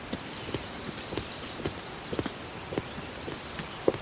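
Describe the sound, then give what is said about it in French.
Footsteps of people walking past on a footpath: faint, sharp, regular clicking steps at an even pace over a constant noisy background. “I hear the footsteps of people walking past me on the footpath. Many different kinds of footsteps. Women's high-heeled shoes,”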